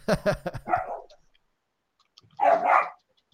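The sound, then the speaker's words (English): Dogs bark: a quick run of sharp barks opens, then a pause, then one longer, louder bark. “They're not going to be happy about that, but she's going to kick them out for now. So they're just going to bark at you,”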